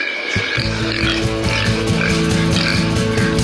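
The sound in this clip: Pig oinking: repeated grunts over a loud, rhythmic musical backing that runs without a break.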